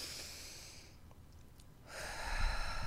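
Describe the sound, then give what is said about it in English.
A deep breath taken in through the nose and let out through the mouth during a guided meditation: a long, airy breath, a short quiet gap, then a second, fuller rush of breath. No one speaks. “we just take a deep breath in through our nose, out through our mouth”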